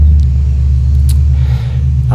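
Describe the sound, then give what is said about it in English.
A loud car passes outside a living room, a deep, steady rumble that fills the whole two seconds with no speech over it. “there goes loud car, and I'm not going to edit it out”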